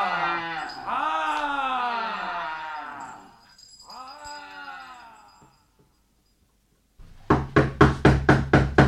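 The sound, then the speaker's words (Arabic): Knocking on a door in a rapid, even run of about seven sharp raps, heard after a stretch of voices and a brief silence. “مين اللي بيخبط علي؟”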